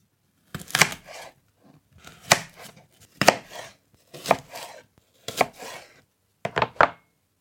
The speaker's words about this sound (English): It sounded like maybe some cutting, like a knife and a cutting board, like slicing something.